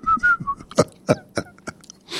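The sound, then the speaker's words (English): A person attempts to whistle: a few short, wavering high tones come first, then several breathy bursts of air and faint mouth noises as the whistle fails to form. “try to whistle. I can't whistle. I've been trying and trying.”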